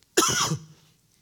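A single throat-clearing cough: one short, raspy burst that fades quickly, with no other sound around it.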